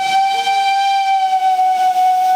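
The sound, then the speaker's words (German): A heritage steam locomotive's whistle signals departure with one loud, sustained, steady high tone that holds without a break for the whole stretch. “der Zugpersonal hat eben den Fahrauftrag gegeben und das Lokpersonal hat den bestätigt mit den Pfiffen und gesagt, so, jetzt geht's los.”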